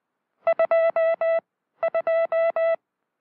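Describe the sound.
Morse code from a properly adjusted telegraph key sounds as a clean, steady mid-pitched beep in two identical groups, each with two short and three long tones that are crisply separated by silence.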